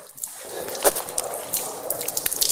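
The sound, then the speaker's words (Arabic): Water poured over the hands during wudu ablution, starting with the right hand, makes a soft, irregular trickle with small splashes and spatters, fairly quiet and without talk. “الآن غسل اليدين، نبدأ باليمنى وهي السنة، هكذا الماء أيضا”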